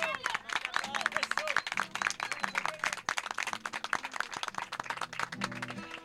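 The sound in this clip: Audience applause for a choir's guitarist: dense, steady clapping lasting about six seconds, with murmuring voices underneath.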